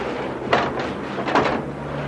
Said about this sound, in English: Well, the door seems to be locked.